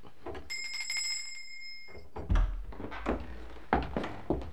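A hand bell rung to summon a servant in a grand house gives a bright, clear ring that sustains for over a second and fades, followed by low bumps and faint background movement.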